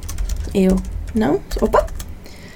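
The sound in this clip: Keyboard typing as a language-lesson example sentence is written out: a run of quick light clicks ticking on and off beneath a voice that speaks throughout.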